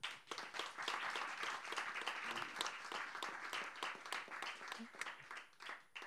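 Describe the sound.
Warm audience applause welcomes a guest: dense, steady clapping from many hands continues at an even level throughout.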